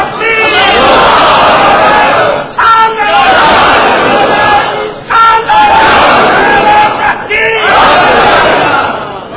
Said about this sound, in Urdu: میرے بزرگ نعرے پسند نہیں کرتے لیکن میں نعروں کے بغیر تقریر پسند نہیں کرتا